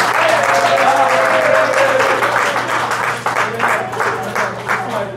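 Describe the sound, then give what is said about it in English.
An audience gives a prize winner a round of applause at a cash-prize giveaway, dense steady clapping that stays loud and continuous throughout, easing only slightly toward the end. “Let's give her another hand.”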